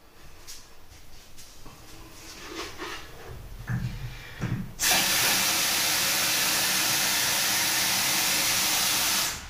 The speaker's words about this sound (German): Aber jetzt mache ich erstmal meinen Kaffee.